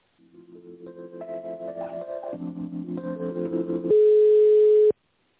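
Telephone line tones play while a call is transferred: a sequence of stepped electronic notes, then one louder steady beep about a second long that cuts off abruptly.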